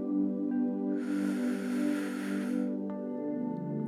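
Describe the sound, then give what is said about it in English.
A deep, soft inhale of breath during a guided meditation on self-worth. It is a gentle, airy rush lasting under two seconds over a quiet, steady musical drone. “I am enough. Again, inhale.”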